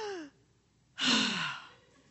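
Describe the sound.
A quick, loud, deep breath drawn in sharply through the mouth, demonstrated by a person as a tense, shallow kind of breathing: one rushing, breathy gasp that fades over under a second.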